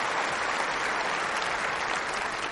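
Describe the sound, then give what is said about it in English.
Audience applause, a dense and even roar of many hands clapping without a break for the full length. “Applaud that, absolutely.”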